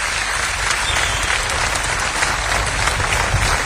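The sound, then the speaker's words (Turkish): Audience applause greets a performer invited onstage at a live show. Dense, steady clapping fills the whole stretch at an even, loud level, with no voices over it. “Kendisini alkışlarınızla davet ediyorum.”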